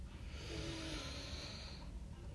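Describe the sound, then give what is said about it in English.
A slow, deep inhale taken during a guided breathing exercise, heard as a steady, airy, fairly quiet rush of breath lasting about two seconds with no talk. “So now, please take a deep breath in”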